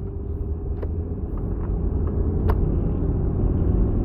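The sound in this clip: A car being driven gives a steady low engine and road rumble, continuous and even throughout, with a few faint ticks over it and no talking.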